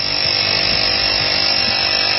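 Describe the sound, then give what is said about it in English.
An air compressor runs while inflating a car tire, giving a loud, rough mechanical drone that holds steady throughout, with no talk. “I was having too much fun with my air compressor here because my tire light is on again.”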